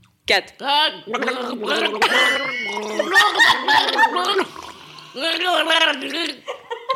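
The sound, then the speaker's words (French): A person gargles water while trying to sing song lyrics as a challenge, producing wavering, bubbling voiced phrases in several bursts with short gaps over about seven seconds. “avec un gargarisme du coup”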